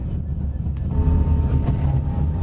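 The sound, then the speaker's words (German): An underground train running, a steady low rumble with faint rattling and squealing along the rails. The sound holds at an even level for the whole stretch, with no voices. “Schottentor, U-Bahn, Kurzstreckengrenze, umsteigen zu den Linien U2, 37.”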